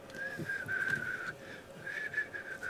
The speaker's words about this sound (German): sich zurücklehnen und so ein bisschen pfeifen